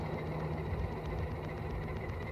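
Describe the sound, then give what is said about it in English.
A low, steady engine drone from a slow vehicle with only two gears, running in top gear among slow traffic on a hill road; the chugging rumble stays even and continuous throughout. “chugging along quietly. We're still in top gear. I have a gear under this. I have only two gears.”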